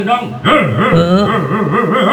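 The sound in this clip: A person imitating a dog, voicing loud, continuous yelps and whines whose pitch wavers up and down in repeated swoops.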